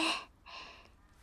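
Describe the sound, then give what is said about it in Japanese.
Air is pushed fully out of the lungs during a deep-breathing exercise, soft airy breath sounds in two parts, a brief stronger push followed by a longer, gentler exhalation that fades away. “深呼吸してみて。はい、いくよ。まずは息、全部吐いて、”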